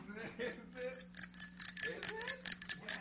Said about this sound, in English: A little bicycle bell from New Belgium. Throw it on my bike when I get home.